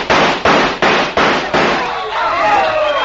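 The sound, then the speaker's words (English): Five rapid gunshots are fired at match heads stuck in the end of a board. The sharp, evenly spaced bangs are followed by a fading tail with a faint lingering tone. “They stuck matches in the end of a board, and the idea was to shoot and light the heads of all the matches. Like this.”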